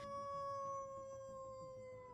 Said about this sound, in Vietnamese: Con chó đầu đàn ngồi trước mặt đứa bé, đưa lưỡi liếm vết thương rồi chu lên một tràng đầy ai oán.